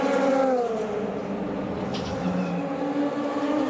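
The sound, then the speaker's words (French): A GT3 race car's engine during a pit stop with a driver change, a steady, fairly loud harmonic drone that dips slightly in pitch early on, with no speech. “Et là, on voit l'arrêt du leader en catégorie GT3. Avec Nick Katzberg qui vient de laisser le volant.”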